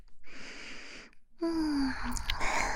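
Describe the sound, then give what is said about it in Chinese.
A person yawning: a long breathy intake of air, then a drawn-out voiced sound held at a low, slightly falling tone, rising in loudness as the breath is let out. “老公，你打哈欠哦，困了就睡吧。”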